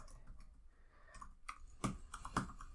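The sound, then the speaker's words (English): Faint computer-keyboard typing: a few scattered key clicks, with a couple of sharper taps standing out near the end over a quiet background. “I typed in the name of this album, which is Infestesumam.”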